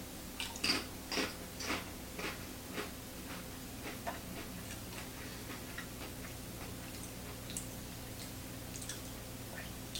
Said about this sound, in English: I've never had these before, never had crickets. Here we go, 3, 2, 1, cricket chips.